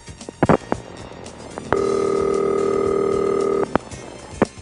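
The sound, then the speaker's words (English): Ringing signal from a Centrex telephone exchange: one steady, buzzy electronic ring tone lasting about two seconds. Sharp line clicks come just before and after it, with a few more clicks near the start. “In New York Telephone's 394, also called Exchange 4, Centrex, which rang like this”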